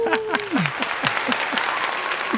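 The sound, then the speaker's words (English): An applause effect plays as a steady burst of many hands clapping, dense and even, continuing without a break to the end. “You'll put in an applause right there.”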